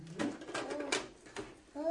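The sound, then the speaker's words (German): A voice imitating an owl's hooting, giving several soft, cooing hoots in a steady row at moderate loudness, with no other sounds around it. “Das ist eine Eule. Eine Eule. Macht die Eule.”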